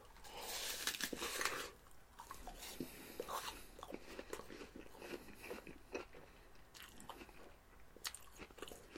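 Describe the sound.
Crisp bites and chewing of an Ambrosia apple, a quiet crunchy crackling with a few louder bursts early on.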